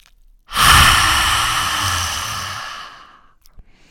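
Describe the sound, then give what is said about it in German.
Forceful exhale through the mouth with the tongue stuck out as far as possible: one long, loud breathy rush of air lasting over two seconds, gradually weakening and trailing off, with no voice. “streckst dann mit dem Ausatmen die Zunge so weit raus, wie es geht, und atmest aus durch den Mund. Das hört sich dann ungefähr so an”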